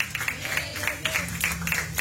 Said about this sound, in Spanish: Dale una ofrenda de palmas fuertes a nuestro Dios.